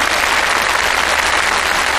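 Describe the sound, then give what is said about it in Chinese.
Sustained audience applause for a performing team at a stage competition after their score is announced, a loud, dense, even wash of many clapping hands with no talking. “再次掌声感谢你们，谢谢，辛苦了。”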